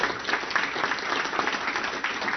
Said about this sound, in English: Give him a Big hand